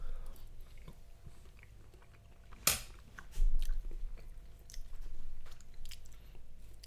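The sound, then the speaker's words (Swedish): Biting and chewing of garlicky food, heard as a few crisp, sharp bites followed by soft, moist chewing and crunching, with no talk. “Ja, vi äter.”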